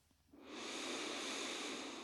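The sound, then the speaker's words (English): A deep, full breath drawn in as a soft airy rush that begins after a brief quiet moment. It swells quickly and holds steady, breathy and moderately loud, until the end, with no talking. “Close your eyes and take a deep, full breath.”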